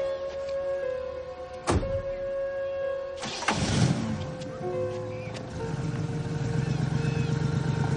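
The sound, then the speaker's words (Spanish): A car engine starts as an elderly man gets into his vehicle. A single sharp knock comes first, then a rough cranking burst catches into a steady running engine that continues to the end. “El abuelo sube a su vehículo para buscar a Amber.”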